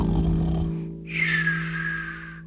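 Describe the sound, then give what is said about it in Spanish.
Voices imitate snoring in a children's sing-along: a low, buzzing, droning tone gives way to a drawn-out, rasping, breathy hiss, like an exaggerated snore played for fun. “Ahora vamos a roncar. A roncar.”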